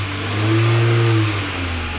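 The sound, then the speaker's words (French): Engine of a Citroën Traction Avant car as it starts and drives off: a low, steady mechanical hum that swells in loudness midway and then eases back slightly. No voices are heard. “La traction démarre alors que 2 camions de soldats allemands arrivent.”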